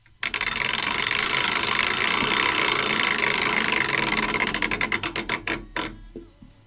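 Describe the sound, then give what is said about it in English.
A prize wheel is spun: a fast, continuous clicking rattle that slows into distinct, spaced ticks before coming to a stop. “Time for a wheel spin.”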